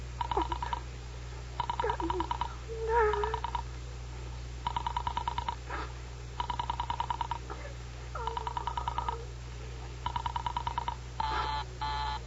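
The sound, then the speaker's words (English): Telephone dialing by an operator placing a call to a Murray Hill exchange number: several bursts of rapid, buzzy pulsed tones with short gaps between them, over a steady low hum. “Operator, for heaven's sake, will you ring that Murray Hill 40098 number again?”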